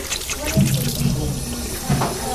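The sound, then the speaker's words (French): Tap water runs into a sink while soap foam is rinsed off a child's hands, a steady, fairly loud splashing hiss that continues through the whole moment. “On va mettre encore un petit peu sous l'eau. Tout enlever la mousse.”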